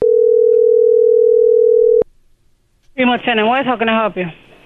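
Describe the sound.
A steady telephone dial tone on an outgoing call holds for about two seconds and cuts off abruptly; after a short near-silent gap, a person starts talking.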